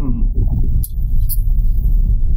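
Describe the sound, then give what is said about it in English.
Steady low engine and road rumble from a car being driven, a constant droning hum with a couple of brief, faint high ticks and no talk. “I'm actually driving right now.”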